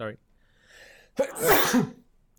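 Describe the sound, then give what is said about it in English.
A single loud sneeze, a sharp burst with a noisy breathy tail, comes just after a brief fragment of speech at the start. “You sneeze on every podcast. It's becoming a regular theme, this.”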